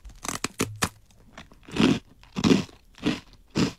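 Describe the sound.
Crisp biting and crunching of rice crackers flavoured like a katsu-don finished in sweet-savoury sauce, with a few sharp snaps up front followed by several rhythmic, quieter chewing crunches.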